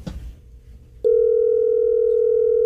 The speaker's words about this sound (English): They call the winner? They don't know it yet. One ringy dingy.